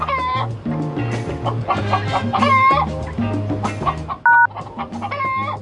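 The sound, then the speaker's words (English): Chickens clucking on a farm, a busy run of overlapping clucks and squawks that rise and fall in loudness over several seconds. “Run over the chickens. Come here, chicken.”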